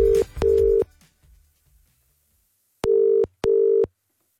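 Electronic telephone ringing tone as a call is placed: two pairs of short, steady beeps, loud and alone, separated by a quiet gap of about two seconds.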